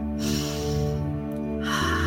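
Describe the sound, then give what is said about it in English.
A slow, deep inhale drawn in over a soft, steady musical tone, with another breath starting near the end. “And with that, take a nice deep breath.”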